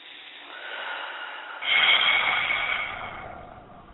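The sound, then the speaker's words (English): A deep breath taken during a guided healing meditation: a soft, airy inhale gives way to a fuller, louder rush of breath that slowly fades out. “let's begin by just taking a deep breath”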